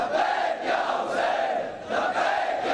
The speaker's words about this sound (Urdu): دہلی کا جنتر منتر ایک بار پھر لبیک یا حسین کے نعروں سے گونج اٹھا۔